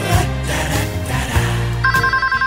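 A telephone rings while a call is placed to a delivery service. A loud, rapidly pulsing ring tone enters partway through over a dense, humming harmonic background.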